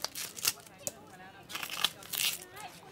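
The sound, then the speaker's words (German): A knife cuts through a red onion, giving a few crisp, sharp cuts and papery crinkling rustles, with some speech alongside. “Gib mir jetzt mal eine von den roten Zwiebeln. So, zuerst schneide ich so hier. Dann hier.”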